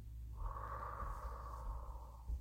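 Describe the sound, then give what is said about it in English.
One long, deep breath, soft and steady, lasting about two seconds and heard alone without talk. “take a deep breath, breathe in, breathe out, breathe in, breathe out,”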